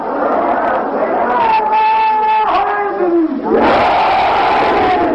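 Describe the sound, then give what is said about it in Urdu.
A crowd at a religious majlis chants the Ya Ali slogan in unison, loud massed voices holding a long falling call before a fresh surge of shouting. “سن لو، آج اس مجلس میں جب ہم علی کا نعرہ لگاتے ہیں تو آپ کے پروپیگنڈے سازش سب باطل ہو جاتے ہیں.”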